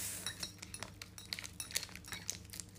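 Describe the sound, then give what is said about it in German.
A spoon handle stirs coffee topped with milk foam in a cup, making many light, quiet clinks and taps against the cup in an irregular rhythm. “Möchtest du mit dem Stiel von meinem Löffel umrühren? Ja, gerne.”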